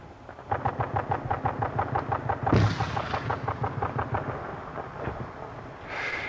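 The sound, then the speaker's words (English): A mortar fires in a combat zone near a field cleared by bulldozer: one loud, heavy boom cuts sharply through a steady, rapid rhythmic pulsing, then fades as the pulsing continues. “Glad that's our mortar instead of them throwing something at us.”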